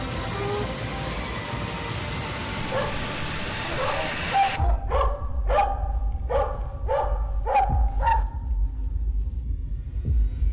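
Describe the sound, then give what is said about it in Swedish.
Hunting dogs used in predator hunting bark in a sharp, loud series of about six barks after an opening stretch of steady hiss. “men framför allt vill jag passa på att presentera hundarna. För det är de som bär den här filmen”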